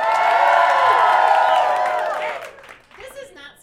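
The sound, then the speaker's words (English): Audience cheering and shouting in a loud, sustained burst as a vote for astronaut ice cream, fading after about two seconds into scattered voices. “Everyone said Dippin' Dots, but then everyone cheered for astronaut ice cream.”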